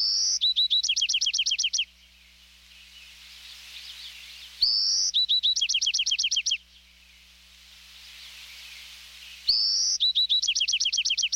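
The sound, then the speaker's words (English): An adult male Bewick's wren sings three crisp, well-defined songs separated by pauses. Each opens with a high buzzy note and runs into a rapid, evenly spaced trill, clear and moderately loud over a faint low hum. “The young Buick's wren is listening to the song of his father, who sings a crisp, well-defined song, separated by pauses.”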